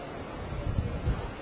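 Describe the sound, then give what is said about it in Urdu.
A vehicle passes with a low, wind-like rumble that swells briefly and then eases, staying faint throughout. “عین اس وقت دیکھو گاڑی گزر رہی.”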